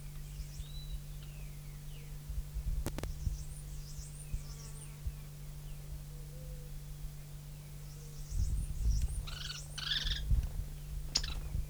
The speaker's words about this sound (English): Three birds present.